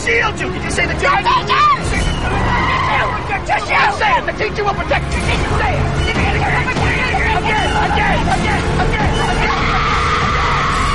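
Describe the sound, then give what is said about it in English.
A car speeds along the side of a road past a boy on a bicycle, with loud, continuous engine and tire noise that suggests skidding, and agitated voices over it. “They speed past Oliver, barely missing him as he rides along the side of the road.”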